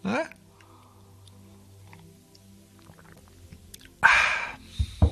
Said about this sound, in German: Mal kurz einen Schluck Tee trinken.